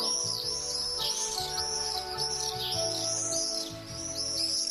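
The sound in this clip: Common swifts call in repeated shrill, high-pitched screeching trills, fairly faint, over a low steady tonal background.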